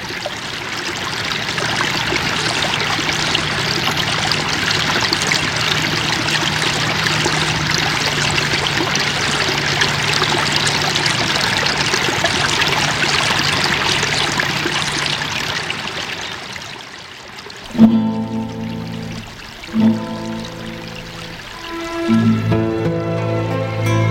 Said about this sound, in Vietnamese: ngồi đây để nghe tiếng lá reo xào xạc và tiếng nước róc rách chảy dưới bầu trời yên tĩnh.